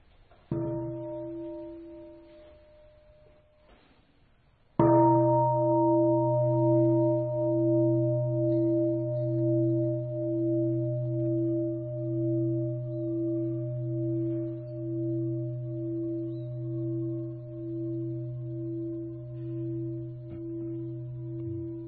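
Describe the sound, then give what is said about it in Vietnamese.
Meditation bell at a Buddhist temple service: a soft, brief first strike, then after a pause a loud full strike whose deep, resonant tone rings on and fades slowly with a steady pulsing wobble for over fifteen seconds. “Tôi thỉnh 3 tiếng chuông và chúng ta bắt đầu 5 phút tĩnh tâm.”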